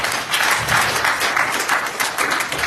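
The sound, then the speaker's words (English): Applause from an audience at a church service welcoming a woman: dense, loud, continuous clapping that stays steady for the whole stretch without a break. “Put your hands together for my sister.”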